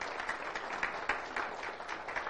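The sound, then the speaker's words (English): A church audience applauds with steady, dense clapping that stays fairly quiet and even throughout, with a few sharper claps standing out. “Give the Lord a hand of applause in his house.”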